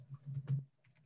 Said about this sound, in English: I'm just going to type in this.